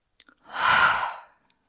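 A single deep inhale through the nose, with hands cupped like praying hands around palms coated in orange oil. It is one smooth, breathy rush that swells and fades over about a second, with a few faint clicks around it.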